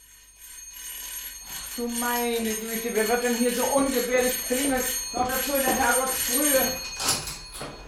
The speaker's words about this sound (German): Meine Güte, wer wird denn hier so ungefährlich klingeln? Noch dazu in der Herrgottsfrühe.